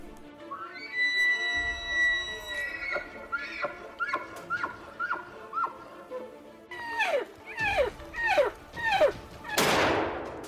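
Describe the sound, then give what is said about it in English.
A single sharp rifle crack fired while hunting, heard near the end after a series of high, repeated animal-like calls that each slide downward in pitch. “Got him, dropped him. Nice shot, buddy.”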